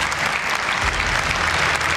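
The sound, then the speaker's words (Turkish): An audience in a congress hall applauds the Palestinian president with loud, dense, even clapping that holds steady throughout without pause. “Filistinli başkan salondakiler tarafından alkışlandı.”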